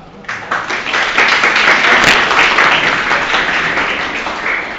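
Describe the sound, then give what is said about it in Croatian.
Audience applause for a speaker: dense, sustained clapping that swells quickly and holds at a steady, loud level throughout, easing only slightly toward the end. “Hvala Marku, zaslužio je ovaj aplauz”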